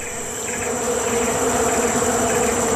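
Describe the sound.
Bees buzzing at a beehive: a dense, continuous insect drone, steady and fairly loud for the whole stretch, with no voices.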